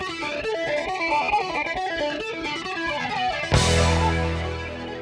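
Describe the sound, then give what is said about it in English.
Electric guitar run through a flanging effect, a short, continuously modulated delay that produces sweeping, swooshing waves across the sound. A sharp, louder chord strikes near the end and rings out. “slightly but continuously changing that delay time, which creates this sweeping, swooshing sound. It's often used on guitar sounds like this.”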